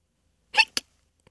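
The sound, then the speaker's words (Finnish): A hiccup-like vocal sound: a breathy burst followed quickly by a sharper second catch, then a faint tick, alone against silence. “Kuulitteko saman, minkä minä? Joku hikkailee.”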